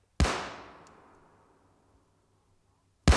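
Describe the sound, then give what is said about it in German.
A gunshot fired by the robber captain in a radio play of Schiller's Die Räuber: one loud, sharp report with a long fading tail, then a second blast cut off at the very end. “Der Hauptmann! Er muss zum dritten Mal schießen!”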